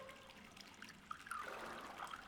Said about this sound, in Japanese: 私にも注いでくれるの？ありがとう。